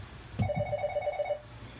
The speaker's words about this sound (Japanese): 固定電話が鳴るって珍しい。